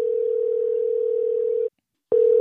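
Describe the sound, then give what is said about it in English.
A telephone ringback tone sounds while an outgoing call is placed: a steady, low, even hum holds for about 1.7 seconds, cuts off briefly, then starts again, with no voices. “I am going to call Michael in Washington again and see if he picks up this time.”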